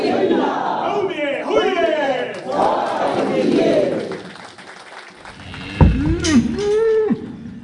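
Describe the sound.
Cattle on a farm raising bulls give several loud, drawn-out bellowing moos, one after another over a continuous murmur.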